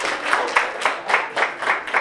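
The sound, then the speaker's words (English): Audience applause greets a visiting percussion group at a community performance: dense, steady clapping with regular rhythmic peaks running through the whole stretch, no talk over it. “Go ahead and give a round of applause.”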